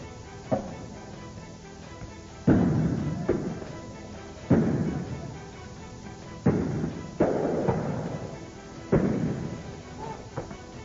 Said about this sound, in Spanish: Mientras las bombas de gases lacrimógenos comienzan a acercarnos, se escuchan también algunos disparos de armas de fuego.